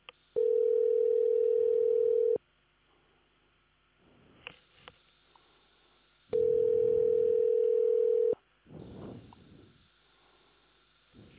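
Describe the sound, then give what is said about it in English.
Telephone line tones during a call transfer: two long, steady ringing tones of about two seconds each, separated by quiet gaps containing faint line noise and small clicks. “Wait while I transfer your call.”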